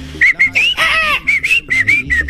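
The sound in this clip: A southern screamer (chajá) call comes as a rapid series of loud, high, whistling notes, repeating many times with slight rises and falls in pitch.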